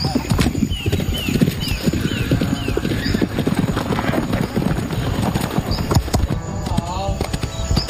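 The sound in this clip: Horse hooves clip-clop steadily during pony jumping training, where riders practise takeoff timing and consecutive running jumps for pony qualification. Many loud, rapid hoofbeats pound on without a break for the whole clip.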